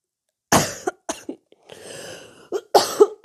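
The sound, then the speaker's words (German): A person with a cold gives several harsh, rasping coughs in short bursts, with a wheezy, breathy stretch in the middle, and the coughs return in a closer cluster at the end. “Entschuldigung. Bin ein bisschen erkältet, hab ein bisschen Scheißhusten.”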